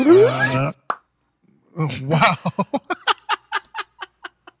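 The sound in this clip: A person imitates a reversed sound with their mouth, making a voiced swell followed by a run of about a dozen quick popping clicks that speed up and fade. Brief laughter comes at the start.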